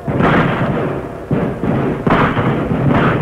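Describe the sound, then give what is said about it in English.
Gunfire from a fight in a radio drama: a few heavy, muffled booming shots follow one after another, each rolling out into a dense rumble, with no voices. “Hey, man, that's a real fight. Yes. Looks like only one side is doing the shooting now, though.”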